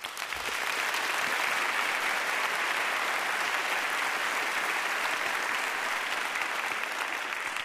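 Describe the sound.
An audience applauds to welcome a 17-year-old violinist from Summerfield, North Carolina, with a steady, full clapping that holds loud and even throughout and no voices over it.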